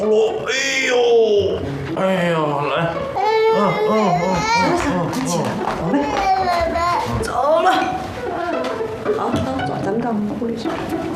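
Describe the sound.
A baby cries in wavering, fretful wails during a meal at home, while adults keep talking over the crying throughout.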